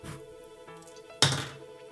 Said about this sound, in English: Okay, so you just need to roll an odd number. That's it. An odd number. So 1, 3, or 5 on a die.